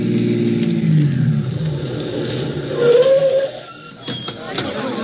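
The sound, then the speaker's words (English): A taxi cab driving and turning a corner as a radio drama effect, a steady low engine rumble that swells briefly in the middle, then drops to a quieter hum. “Ellery Queen and Nicky to hail a cab, hop into same, and head for 36B Washington Square North, the scene of the crime. We pick them up as they swing around the lower Fifth Avenue corner of Washington Square.”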